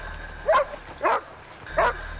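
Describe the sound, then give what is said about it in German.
A police dog barks beside a lake, giving three sharp, separate barks at an even pace with nothing else heard. “Nachdem Polizeihund Gorbi die Fährte aufgenommen hat, fängt er an dem See plötzlich an zu bellen.”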